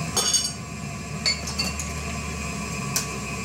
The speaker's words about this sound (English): And then we add three egg, one by one. One egg.